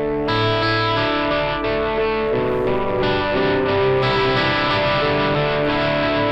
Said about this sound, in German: Dann habe ich es jetzt vor dem Amp. Jetzt ist es erstmal schon mal viel lauter, ja, weil der Amp ja komprimiert und zerrt.